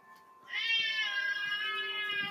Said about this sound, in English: And the cat's going to meow. And he's staring at me hard right now because I gave him a little nudge to get out of the way so he didn't bite me again.